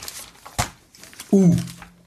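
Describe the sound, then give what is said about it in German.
A paper page being turned: one brief, sharp rustling swish, followed moments later by a voice speaking. “Hier umblättern, nächste Seite, Kinders.”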